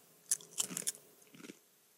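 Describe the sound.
Crunching bites and chewing of a buttery-tasting chip: a few crisp, faint crunches in a short burst, then quieter chewing.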